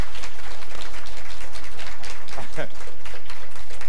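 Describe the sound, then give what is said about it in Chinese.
A church audience applauds during a sermon, a dense, steady patter of clapping that lasts throughout, with speech over it. “我们一起用掌声啊！”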